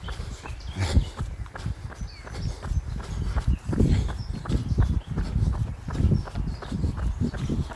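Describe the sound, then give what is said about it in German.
Footfalls of a passing runner with an odd, awkward gait: a steady series of many dull, thudding steps over a low rumbling background. “Da kam jetzt ein Läufer, der sehr seltsam gelaufen ist.”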